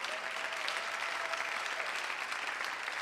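A church audience applauding: dense, even clapping from many hands, fairly faint, holds steadily for about three seconds without a break.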